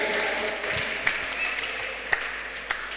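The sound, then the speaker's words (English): A church audience applauds during a sermon: a faint, steady wash of many hands with a few louder, sharper claps breaking through at intervals. “I tell you, please clap for women.”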